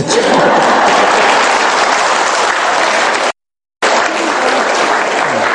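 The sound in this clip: An audience at a Buddhist monastery dharma talk claps in loud, dense, steady applause. It cuts out for a brief moment, then carries on at the same strength.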